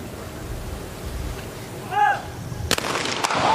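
Gunshots at a shooting competition: two sharp, loud cracks in quick succession near the end, following a stretch of low background noise.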